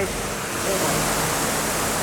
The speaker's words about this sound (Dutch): Daar horen wij het water. Ja, dit zijn de filters.